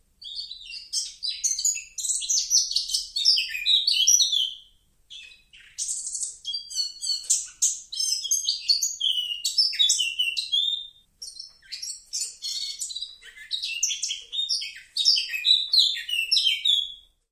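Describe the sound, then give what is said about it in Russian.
A male Eurasian blackcap sings long runs of rapid, high, warbling phrases, loud and nearly continuous, broken by a couple of brief pauses, with no voices. “Это поет самец черноголовой Славки”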